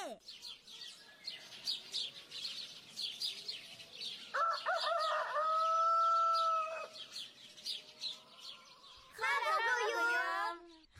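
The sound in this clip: A rooster crows amid the steady twittering of sparrows. High chirps run faintly throughout, a sustained crow stands out in the middle, and another harsh call follows near the end.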